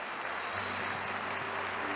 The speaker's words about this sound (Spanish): Aplaudimos tu palabra, Padre.